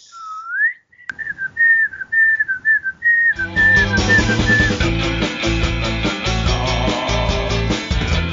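Someone whistles a tune, a clear, wavering melody of short notes on its own at first, then backing music comes in and the whistling continues briefly over it.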